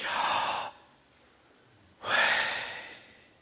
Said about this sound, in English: And these letters are said to represent breathing sounds. When you breathe in,